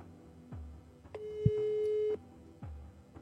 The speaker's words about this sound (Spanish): A ver, vamos a llamarle a ver si me contesta.